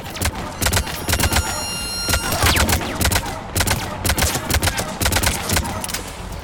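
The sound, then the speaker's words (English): Video game gunfire while shooting Cerberus operatives: many loud, rapid shots in dense volleys and bursts, with short gaps between the clusters. “We're gonna have to shoot a bunch of people. But gosh, you know how I feel about shooting Cerberus operatives.”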